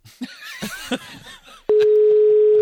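A telephone dial tone sounds while someone places a call. After some brief vocal sounds, a steady, unbroken tone starts abruptly and holds loud to the end.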